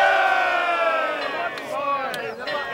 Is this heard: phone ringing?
no